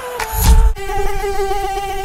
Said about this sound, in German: Aua! Jetzt hat mich schon wieder eine Mücke erwischt.